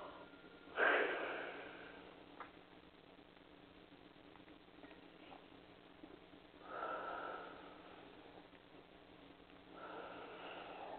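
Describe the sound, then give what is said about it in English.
Deep breaths taken during a slow breathing exercise: a sharp, quick inhale near the start, a longer, softer breath midway and another at the end, all faint and alone without talk. “I say take several deep breaths. We need to release the toxin out your body. So let's take a deep breath.”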